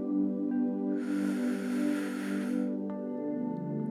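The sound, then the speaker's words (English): A slow, deep inhale during a breathing exercise comes as a soft, airy rush lasting under two seconds, set over sustained, gentle tonal music. “Again, inhale.”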